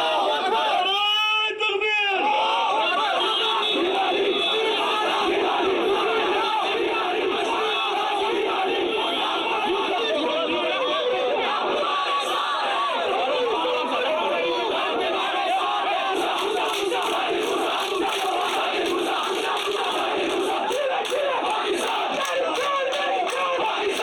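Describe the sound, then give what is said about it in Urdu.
A crowd gathered outside a mosque after Friday prayers loudly chants slogans demanding freedom from India and supporting Pakistan. The shouting is dense and continuous, with many voices overlapping throughout. “Gilani جب مسجد سے باہر آ رہے تھے تو وہاں جمع لوگوں نے بھارت سے آزادی کے مطالبے اور پاکستان کے حق میں جم کر نعرہ بازی کی.”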